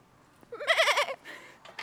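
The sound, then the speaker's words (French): Goats bleat with a loud, wavering, tremulous call, followed by shorter and fainter bleats. “Ah, il y a des chèvres aussi. Ah oui. Si on allait les caresser.”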